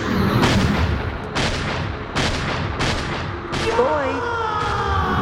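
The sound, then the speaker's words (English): A volley of loud gunshots during a tense confrontation, each a sharp blast with a rumbling tail, spaced about a second apart; a brief voice cuts in near the end. “He's got a gun!”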